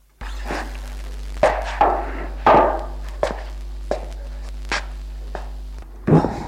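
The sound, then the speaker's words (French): Footsteps of someone walking around a room: a series of irregular, hard thudding steps, some louder than others, over a low steady hum, ending with a heavier knock. “Alors il se lève pour marcher dans la pièce.”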